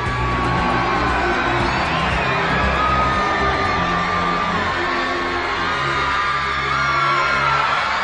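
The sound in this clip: A large crowd cheers hooray in a dense, continuous roar. Whoops and yells from many voices, including some high-pitched shouts, stay at a loud, steady level the whole way through.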